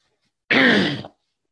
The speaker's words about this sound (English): Excuse me, I need to clear my throat.